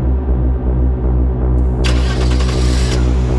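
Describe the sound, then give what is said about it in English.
A car engine runs as a blue sedan pulls out of its parking space and drives out of the lot, a steady low rumble that gains a brighter, rougher edge partway through. “Grimly focused, she watches him drive out of the lot.”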